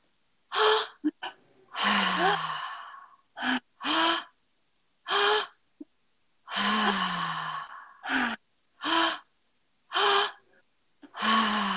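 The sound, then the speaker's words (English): Breathing exercise with a repeated pattern of two quick, sharp inhales followed by a longer, sighing exhale. The loud, gasping breaths cycle several times with brief silences between them. “you're doing two inhales and an exhale. And so let's start now. Inhale, breath into the belly.”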